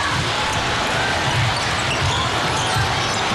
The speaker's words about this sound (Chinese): 捷克队运球到前场